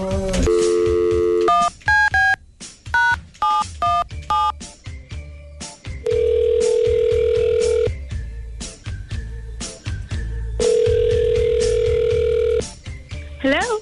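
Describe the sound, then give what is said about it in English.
A telephone dials a call from a radio studio: a rapid run of short keypad tones, then two long, steady ringing tones separated by a pause. “We're going to give Anna a call right now.”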